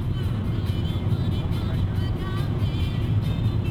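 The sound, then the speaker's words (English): A car driving on the Autobahn south from Berlin gives a steady, dense drone of engine and road noise that stays level throughout, without change or break. “Driving on the Autobahn south from Berlin, I head to a town called Schwarze Pumpe, German for Black Pump.”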